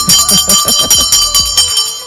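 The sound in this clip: A bell rings in a quick run of about nine bright strikes, each leaving a sustained metallic ring that overlaps the next, with an even rhythm and no voices.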